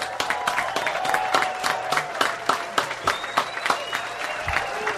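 Audience applause for a performer: many sharp, distinct claps at a steady, slightly uneven pace, with a thin sustained tone drifting faintly underneath.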